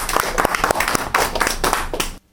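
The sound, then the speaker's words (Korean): Audience applause: a brisk, dense run of clapping with regular louder bursts, stopping abruptly at the end. “예, 예, 박수요.”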